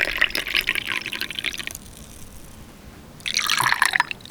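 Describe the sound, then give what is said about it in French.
Broth simmering in a pot, made by a local restaurateur, with bursts of bubbling liquid that break off into a quiet pause and then return. “C'est le bruit du bouillon. Pourquoi ? Qu'est-ce que c'est ? Alors, c'est un bouillon qui a été préparé par un des restaurateurs adhérents à l'association, Nicolas Vernet.”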